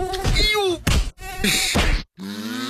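Mosquitoes buzz in an Autan insect repellent advert, with a whining, droning hum that comes in a few loud bursts separated by short silent gaps.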